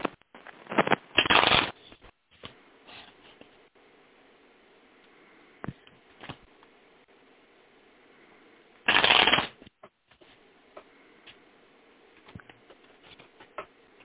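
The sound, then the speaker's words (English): Tarot cards being shuffled and cut, two loud bursts of rapid riffling patter separated by a long stretch of quiet, with faint scattered taps and card handling in between. “Now I'm going to pull the tarot card and do a three-card cut.”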